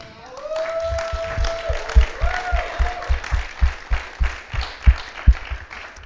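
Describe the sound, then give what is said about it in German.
A church audience applauding: loud, sustained clapping with a steady rhythmic beat of strong claps, and voices rising above it. “Gebt ihnen einen Applaus.”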